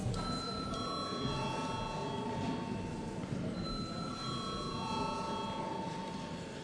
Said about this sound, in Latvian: Paldies, lūdzu zvanu.